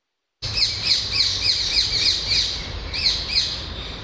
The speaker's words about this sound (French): La perruche, effectivement. C'est la perruche à collier.